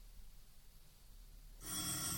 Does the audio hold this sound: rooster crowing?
no